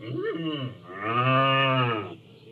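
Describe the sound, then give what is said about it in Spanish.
A bull bellows: a short low call, then a longer, deep, tonal moo that swells and holds before cutting off. “Entonces, el toro Van, siempre con los cuernos en alto, bramó y dijo:”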